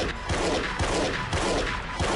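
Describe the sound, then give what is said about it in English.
Gunfire from a television shootout: rapid, repeated bursts of shots at a fairly steady rhythm, loud and crackling, with no talk over them. “Cool-looking TV gunfights don't influence anyone to pick up an assault rifle, these executives would say.”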